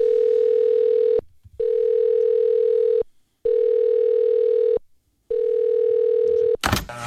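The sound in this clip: A telephone line tone plays while a call is being placed: four long, steady beeps at one mid pitch with short silent gaps between them, then a brief noisy click at the end.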